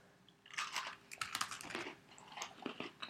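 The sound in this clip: Crunchy biting and chewing of an Oreo cookie during a taste test, with a quick run of crisp crunches and softer chewing in between, fairly loud and with no talk.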